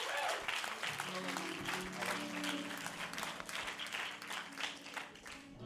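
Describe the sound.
A church audience applauds to welcome a guest preacher to the pulpit, with sustained, dense clapping and voices mixed in. It stays fairly faint and even throughout.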